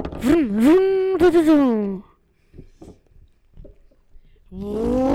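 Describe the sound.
A voice imitating a car engine starting and driving off: a loud, tonal, buzzing hum that revs upward, holds and then drops over about two seconds. Faint clicks follow, then the voiced sound returns.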